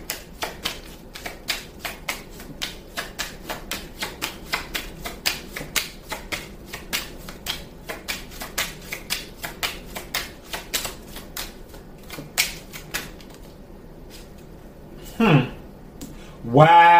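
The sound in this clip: Cards being shuffled and drawn in a card reading, heard as a long run of many light, evenly paced snapping clicks. After a pause, a voice is briefly heard near the end.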